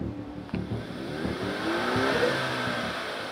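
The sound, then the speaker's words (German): A modified Ford Mustang's engine revs with a sudden hard onset, then swells into a sustained, throaty roar that holds fairly loud to the end, with no talking over it. “Auch am Sound des Wagens könnte es Manipulationen geben.”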